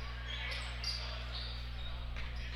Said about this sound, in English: Still in their offensive set, the ball dribbled, being passed back and forth outside of three.